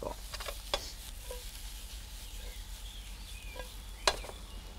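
Food sizzles faintly in a pan as it is deglazed with a splash of white wine. A soft, steady frying hiss runs throughout, broken by two sharp utensil clicks.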